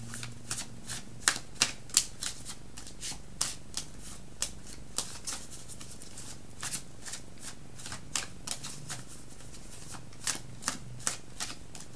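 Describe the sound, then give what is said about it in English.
Cards from an After Tarot deck being handled and drawn: many crisp, papery flicks and snaps at an irregular rhythm over a steady low hum, with no talking. “Wait, I'm going to get a card from the After Tarot for Pisces.”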